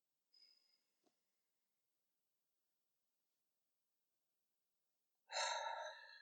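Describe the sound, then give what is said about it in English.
A deep breath taken in and let out: a faint, short inhale early on, then a long stretch of silence and a loud, rushing exhale at the end. “we can take a nice deep breath together. One. Two. Three.”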